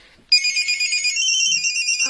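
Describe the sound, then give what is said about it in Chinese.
A mobile phone ringtone plays a loud, high electronic melody in a steady pulsing rhythm, and its pitch steps down partway through. “对不起，接个电话。”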